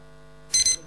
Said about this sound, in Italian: È partita la sveglia